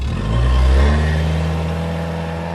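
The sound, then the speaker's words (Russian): A car engine revs up as the vehicle drives away: a low, mid-pitched drone that swells during the first second, then holds steady and level to the end, with no voices. “Бочком они влезли в машину, дверца захлопнулась, и новые укатили.”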